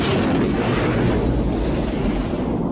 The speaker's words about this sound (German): Ich bin getroffen, doch nicht schwer. Der Kreuzer hat auf Sie geschossen.